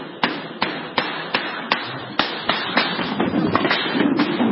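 Gunfire from gunmen opening fire in an attack in Denmark: loud, sharp cracks, first at a fairly steady spaced beat, then coming faster and overlapping into a dense, continuous rattle.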